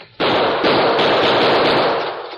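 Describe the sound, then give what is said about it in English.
Gunshots fired at the staple of a chain: a sudden, loud, dense burst of gunfire that holds steady for about two seconds, with the individual shots blurring together before it eases slightly at the end. “I'm going to try some bullets on that staple. Move back as far as you can.”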